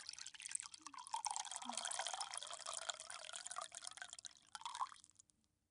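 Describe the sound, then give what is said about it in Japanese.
Hot water being poured over noodles: a soft, steady trickling hiss lasting about five seconds, faint throughout. “お湯を入れて、”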